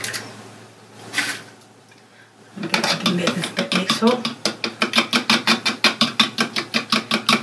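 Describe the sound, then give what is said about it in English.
Eggs being beaten in a bowl, with a fast, steady run of many sharp rhythmic strokes at an even pace. They start after a quieter opening stretch that carries some faint sounds and voice. “Like I said, it's a different one, so I'm going to first of all I'm going to beat some eggs up.”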